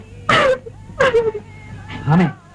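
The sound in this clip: A woman cries and sobs in three broken, wailing bursts separated by short gaps, her voice quavering and rising and falling in pitch.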